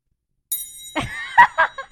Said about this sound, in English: Ding! Ring that bell. Ring that bell.